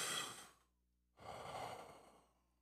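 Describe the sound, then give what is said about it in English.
A group breathes together during a prayer: one deep inhale drawn in, a brief silence, then a longer, louder exhale blown out through the mouth that slowly fades away. “Now, I want all of you to take a deep breath and blow out with your mouth.”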